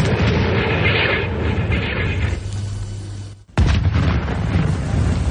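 An artillery gun fires a shell at 27 degrees elevation against attacking creatures. A sudden, loud blast cuts through dense, rumbling noise, and a heavy roar follows.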